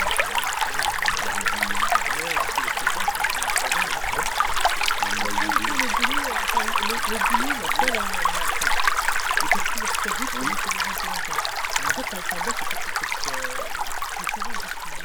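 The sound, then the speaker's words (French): A small trickle of water runs in a stream that still flows despite a drought, a steady bright babbling and splashing that continues without pause throughout. “Un petit filet d'eau juste derrière nous, donc malgré la sécheresse actuelle qui est toujours en eau.”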